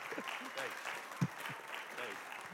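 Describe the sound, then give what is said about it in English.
Quiet applause from a church audience at a morning service welcoming a visiting pastor, soft continuous clapping with voices mixed in. “So let's give him a welcome and hand this morning.”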